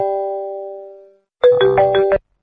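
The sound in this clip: A phone ringtone sounds for an incoming call. One sustained tone fades away, then after a short pause a brief, bright melodic burst of stacked tones plays, loud and with no voices.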